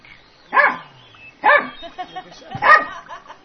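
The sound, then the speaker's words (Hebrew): A dog barks three times in short, sharp, mid-pitched bursts about a second apart, with a few softer yips between them. “ועכשיו הגיע איזשהו כלב.”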